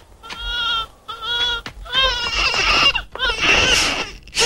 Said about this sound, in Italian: Per carità, non fatelo piangere. Calmati, calmati. Il tuo papà è qui, non piangere.